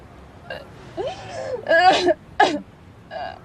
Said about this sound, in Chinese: 别哭了，得给自己呛着。